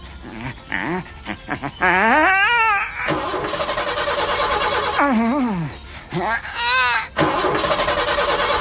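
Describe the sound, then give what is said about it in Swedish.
A human voice imitates a hard-to-start Ford Taunus car engine, with stuttering cranking bursts, warbling rising and falling tones, then a sustained rough, buzzing engine-like drone broken by brief sputters. “det är en svårstartad Ford Taunus”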